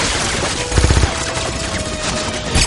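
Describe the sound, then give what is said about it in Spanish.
Gunfire exchanged with gunmen inside a building, bullets piercing the beam used as cover: a sharp cluster of rapid shots bursts out early, a steady rumbling din carries on beneath, and a few more cracks hit near the end. “Intercambia disparos con los pistoleros. Dos matones agujerean la viga tras la que se oculta Bond.”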